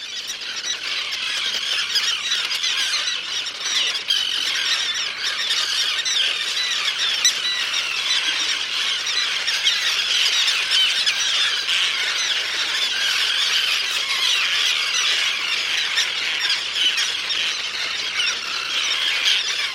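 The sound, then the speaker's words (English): Common and roseate terns at a nesting colony on an island off Guilford, Connecticut, in Long Island Sound. Many shrill, harsh cries overlap into a continuous, agitated clamor for about twenty seconds, with no talking. “It's one of the tern's last safe retreats. No wonder their cries sound so angry.”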